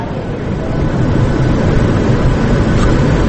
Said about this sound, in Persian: آه بلند شد هواپیما، رد شد.